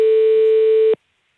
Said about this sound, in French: Donc ici, on appelle sur le numéro fixe de l'entreprise.